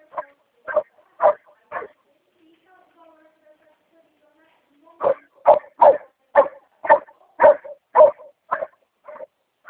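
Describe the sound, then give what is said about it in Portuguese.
A dog barks loudly in sharp, repeated bursts: a short run of barks, a pause with faint low sounds, then a longer, rapid series of strong barks that continues to the end. “Esse é o cachorro que está latindo? Isso. Latido forte?”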